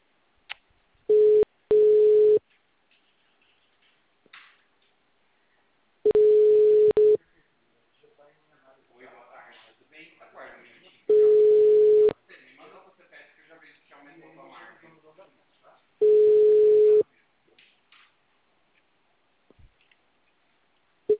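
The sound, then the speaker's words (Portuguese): A telephone line busy tone sounds as steady, mid-pitched beeps of about a second each, repeating roughly every five seconds, with a recorded voice speaking between the beeps. “Todas as linhas estão ocupadas no momento. Por favor, tente mais tarde.”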